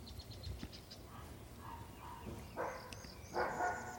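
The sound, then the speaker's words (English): A dog barks faintly outdoors in Florida: a couple of short, soft barks near the end, set against low, steady background noise. “There's a dog barking, probably at a squirrel, hopefully at a squirrel. There's another dog barking.”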